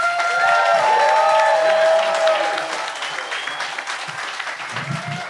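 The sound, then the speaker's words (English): Live audience applause welcoming a host on stage at a recorded show aboard a music cruise: loud, dense clapping that holds steady, then slowly thins and fades toward the end. “So everybody, put your hands together right now and give a big warm welcome to Mr. Jamie JOSTA.”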